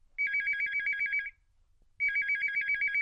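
A telephone rings as a call is put through to a radio show: an electronic warbling trill sounds in two bursts, each lasting about a second, separated by a short pause.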